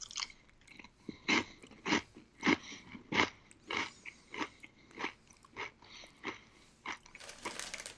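Crunchy chewing of a sweet, crispy cereal snack held together by a sugary glaze: many sharp, brittle crunches at a loose, steady chewing rhythm, fairly quiet, with no talk.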